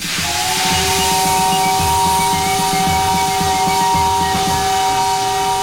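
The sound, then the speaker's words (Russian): Steam hisses loudly from under the wheels of a black steam locomotive on a passenger train standing on the tracks. The continuous hiss carries a sustained whistle-like tone over rhythmic low pulses. “Из-под колес черного паровоза вырывается белый пар.”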